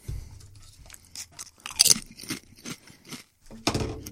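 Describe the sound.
Crunchy bites and chewing of sour cream and onion potato chips, with a few sharp, crackling bursts separated by short pauses and quieter mastication between them.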